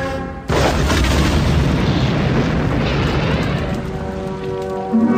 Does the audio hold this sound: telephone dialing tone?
no